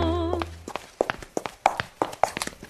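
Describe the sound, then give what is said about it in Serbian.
Many sharp taps of handmade slippers in slipper-maker Dejan Kovač's workshop in Subotica, falling in an uneven rhythm after a brief musical tone at the very start. “Ovoga puta osluškujemo lupkanje papučica”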